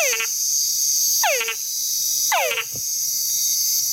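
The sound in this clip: Frog mating calls: three loud whines sweeping sharply down in pitch, evenly spaced about a second apart, over a steady high insect-like drone.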